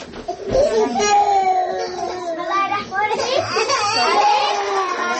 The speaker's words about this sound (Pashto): څوک ژاړي او څوک درس وایي.